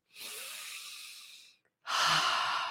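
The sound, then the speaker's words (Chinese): A deep breath heard as two airy, breathy sounds: a long, soft one lasting over a second, then after a brief silent gap a stronger second breath. No voice is heard. “来深呼吸，对于我们的健康很重要的，深呼吸一下”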